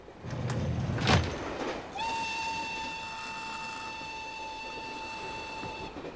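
A train runs with a steady rolling rumble, broken early by a short rushing burst, then a long, clear whistle tone that holds for about four seconds over the continuing noise of the wheels.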